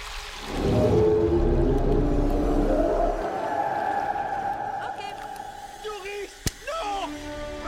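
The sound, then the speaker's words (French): A voice imitates whale speech in a French-dubbed scene from Finding Nemo, stretching out long, low, wavering moaning vowels before breaking into shorter, choppier sounds. “Non, une baleine, tu peux pas parler le baleine. Oui, je peux. Non, tu peux pas.”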